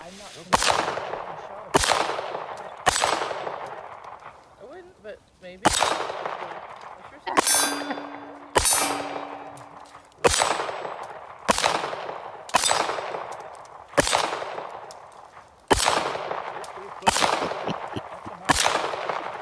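Gunshots from a fired gun: many sharp, loud bangs at an even pace about a second apart, each with a ringing, metallic decay that fades before the next shot.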